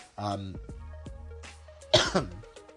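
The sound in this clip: A man coughs while his voice is giving out and he is tired from talking. A voiced throat noise comes first, then a harsh, loud cough burst followed closely by a smaller second burst.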